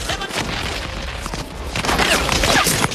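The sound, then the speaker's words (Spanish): Gunfire rattles in dense, continuous volleys with booming hits during a mock war scene, loud throughout, with a voice shouting over the shooting. “¡Oye, dispara para el otro lado! ¡Si somos del mismo equipo!”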